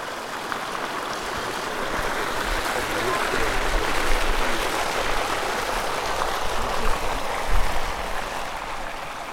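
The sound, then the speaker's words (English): Water pours from one pool into another where brine is concentrated until salt crystallizes out, making a steady, continuous rushing wash with no clear breaks. No one talks over it. “here is the sound of water pouring from one pool to another as gathered by a Terrascope student.”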